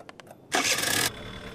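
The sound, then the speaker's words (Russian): A scooter engine starts: a few light clicks, then a loud rushing burst as it catches, settling into a steady, quieter idle hum. “Ну что, большой мальчик никогда скутера не видел, что ли? На. Заведи.”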